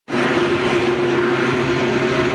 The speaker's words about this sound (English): This helicopter hovers over a fire